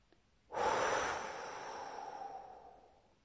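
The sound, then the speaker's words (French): A single deep breath rushes out as a loud, airy sound that starts suddenly and then fades slowly over about two and a half seconds. It could be a deep inhale through the nose followed by a strong exhale through the mouth. “Prenez une profonde inspiration par le nez en gonflant la poitrine et le ventre. Puis soufflez fortement par la bouche.”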